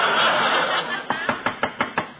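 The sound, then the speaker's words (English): Knocking on a door by a salesman in a comedy sketch: six brisk, evenly spaced raps follow a swell of laughter. “Well, what are you knocking again for?”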